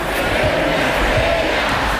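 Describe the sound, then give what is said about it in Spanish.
Crowd chanting for footballer Marc Cucurella at a title celebration, a loud, massed sung chant from many voices, steady and dense throughout. “Cucurella, uno de los fijos en las fiestas post-títulos, pidió ayuda al público para cantar su canción.”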